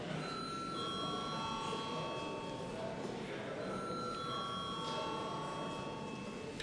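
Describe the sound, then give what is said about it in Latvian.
A bell rings to call a parliamentary vote, with faint sustained metallic tones that restrike several times over a steady low murmur of voices. “lūdzu zvanu.”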